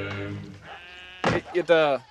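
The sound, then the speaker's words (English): Goats bleating on a farm: a few short, wavering, nasal bleats in quick succession, fairly loud and clear. “Did I hear some goats in the background?”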